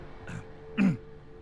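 A woman clears her throat with one short, low, rasping burst, preceded by a softer breathy sound against a faint steady hum.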